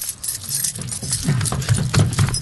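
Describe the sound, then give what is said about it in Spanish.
Keys jangle as someone fumbles for the right key to open a lock on a cold February night, giving irregular metallic clinks and rattles mixed with dull low thuds throughout. “Ya, no puedo encontrar la llave correcta.”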